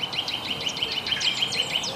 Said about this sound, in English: And the bird song, they have like a peep, peep, peep.